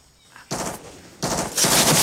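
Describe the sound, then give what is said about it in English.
Automatic gunfire from a soldier shooting into the jungle, two sustained rattling bursts after a brief quiet start, the second louder and continuing to the end. “The soldiers duck for cover. One of their own is firing into the jungle.”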